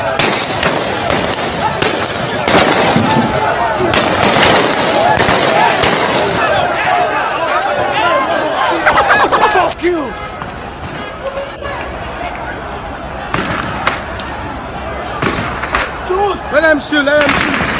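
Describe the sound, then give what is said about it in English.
Gunfire from soldiers shooting from their barracks crackles in many sharp, rapid bursts and scattered single shots, loud throughout, with shouting voices mixed in. “Yes, they're shooting from I think their barracks or something. See, then they come for the war.”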